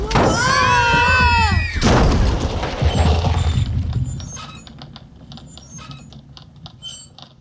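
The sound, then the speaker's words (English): An erupting volcano hurls lava bombs: descending whistles give way to a loud, rough roar, then a pattering of smaller impacts that gradually fades. “Is it possible one of the volcanoes is erupting again? Sure, it's possible. Volcanoes can erupt for days. I was actually Pick. surprised when it stopped. Toothpick. The volcano starts to lava bomb.”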